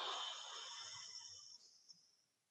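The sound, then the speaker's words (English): A deep breath is blown out into a trash can: one long, breathy exhale of airy hiss that starts strong and gradually fades over about a second and a half, heard alone. “Take a breath, blow it into that trash can.”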